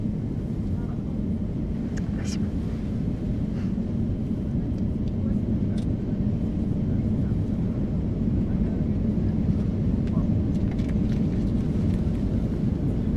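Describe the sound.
Airplane taking off, heard from the cabin as a loud, steady low roar of engines and airflow. The rumble holds at a constant level throughout, with no clear breaks or changes.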